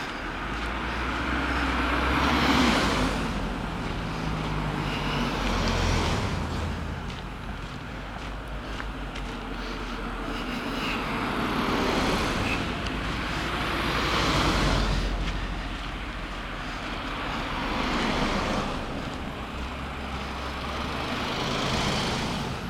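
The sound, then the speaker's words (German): Busy road traffic heard from a moving car, with oncoming vehicles passing one after another in regular swelling whooshes over a constant low road drone. “Aber hier ist echt Verkehr. Leute, Leute, Leute. Ein Auto nach dem anderen. Na, die kommen uns jetzt alle entgegen.”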